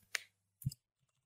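Computer mouse clicking while content is selected on a study website, with two short, sharp clicks separated by a brief pause and silence afterward.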